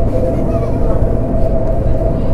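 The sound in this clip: Low, steady rumble inside a moving passenger train, loud and continuous, with a faint tonal hum running underneath.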